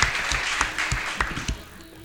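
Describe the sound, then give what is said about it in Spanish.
Sparse applause from a few people, heard as several separate, fairly evenly spaced claps over about two seconds at moderate loudness. “Un abrazo, por favor, y un aplauso para Radio Nauta.”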